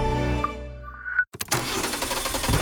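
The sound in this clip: A car engine starts: a steady humming tone, then a sharp click, a brief gap and a broad, rough roar as the engine catches and keeps running, fairly loud and alone.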